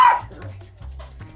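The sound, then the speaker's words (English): A dog barks once, sharp and loud at the start, followed by softer, lower vocal sounds. “Okay, that's my dog.”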